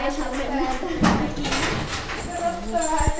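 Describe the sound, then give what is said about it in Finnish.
A horse named Hose being groomed at a stable: soft brushing and rustling with a few hoof knocks, all under people talking. “Täällä on Kaisallakin joku hevonen. Mikä niminen heppa täällä on? Hose. No niin, Hosekin on päässyt tänne harjattavaksi.”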